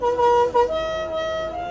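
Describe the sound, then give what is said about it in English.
A warning beep from a French car's dashboard: a loud, steady electronic tone with a buzzy, reedy edge. It holds one pitch, breaks briefly, then carries on at a slightly lower pitch. “this gauge is to show you if something's wrong with the car, and you get a beep beep that sounds like this, and one that sounds like this.”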